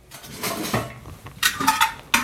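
Metal pressure cooker pots clanking as they are handled in the kitchen of a small factory making cork sweets, a few irregular knocks and scrapes with no talk.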